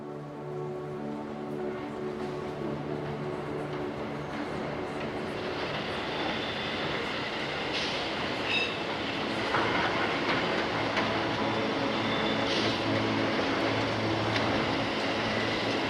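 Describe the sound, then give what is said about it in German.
An old-fashioned train pulling into a station, with a continuous rumbling roar, steady low droning tones and a clattering rail rhythm that hold at an even, full level throughout. “Und kurz darauf fährt ein altertümlicher Zug ein.”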